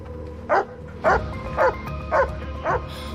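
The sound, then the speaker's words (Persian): A dog barks five times at an even, measured pace. Each bark is short and sharp over a steady low background rumble. “بهتره اون سگتو کنترل کنی وگرنه میکشمش.”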